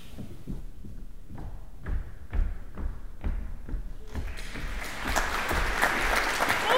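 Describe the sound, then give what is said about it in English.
Studio audience applause welcomes performers onto the stage at a TV cooking show taping. Scattered thumps and knocks come first, then the clapping swells into dense, steady applause. “The TV production assistant announces the beginning of the opera, and the audience welcomes the performers to the stage.”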